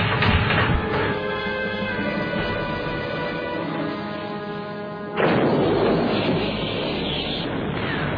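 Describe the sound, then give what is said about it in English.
A ship's deck gun fires, making a heavy boom over a continuous low rumble. A sharp, loud blast stands out near the end, then a dense rumbling roar continues. “You win the bet, Captain. Looks like the deck gun won't do it. We'll have to put a torpedo into her.”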